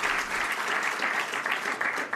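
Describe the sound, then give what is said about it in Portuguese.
Applause at a political event: a steady, dense wash of many hands clapping, even in level throughout the short stretch with no voices over it. “Arrancar mais uns aplausos.”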